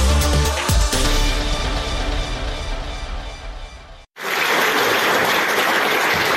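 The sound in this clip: Applause from a full house at the Ilhom theatre after a performance of the play about girls in seclusion. Music plays for about four seconds, then breaks off abruptly, and loud, dense clapping follows until the end.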